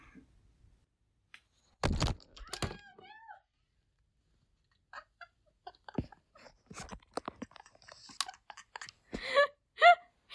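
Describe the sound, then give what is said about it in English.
A phone knocked off a bed, where it had been balanced on a stuffed animal, lands with a sharp thud and a second knock, followed after a pause by quiet talk. “I'm probably gonna have to cut that out because I'm sure that was loud. And probably scared the shit out of everybody. I knocked my phone off the bed. It was balancing on one of said stuffed animals.”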